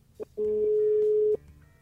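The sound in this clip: A telephone ringing tone sounds while a call is being placed: one steady, mid-pitched beep lasts about a second, preceded by a faint click. Quiet background noise surrounds it.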